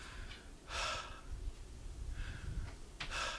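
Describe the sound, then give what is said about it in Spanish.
A person breathing in and out on purpose, slow and audible, with a few soft breathy rushes of air spaced apart and fairly faint. “quédate un día de estos calladito y vas a ver que uno respira así, mira.”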